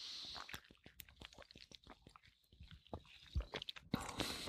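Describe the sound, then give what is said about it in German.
Someone drinking quietly, with faint mouth and swallowing sounds made up of many soft clicks and small gulps in an irregular rhythm. The sounds stay low throughout and grow a little busier toward the end. “Aber ich trinke erstmal. So, dass das keiner mitkriegt.”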